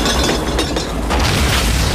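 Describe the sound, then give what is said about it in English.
Nitro explosion as a runaway wagon crashes into a saloon and rips the building apart: a loud, dense, sustained roaring blast with rumbling low end and crackling debris throughout. “The wagon crashes into the saloon and the nitro explodes, ripping the building apart.”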